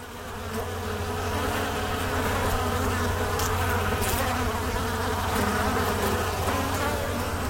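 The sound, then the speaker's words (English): Italian honeybees buzz steadily as they dart in and out of a top bar hive on a sunny day, a dense, continuous drone of many wings holding an even, fairly loud level throughout with no voices. “The bees were hard at work, darting in and out of their top bar hive.”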